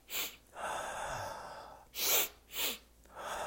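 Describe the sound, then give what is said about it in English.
Physiological sigh breathing, a calming double inhale followed by a long exhale: quiet airy breaths through the nose, with two short sharp sniffs in a row, then a softer, longer outward breath. “The physiological sigh, beautiful and amazing technique to calm your nervous system.”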